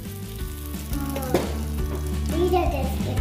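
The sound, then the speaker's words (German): Hot butter poured onto roasted almonds gives a steady sizzle and fry, with one brief sharper burst partway through and a faint stirring texture underneath. “Dann geben wir da noch die gerösteten Mandeln mit dazu. Und die heiße Butter.”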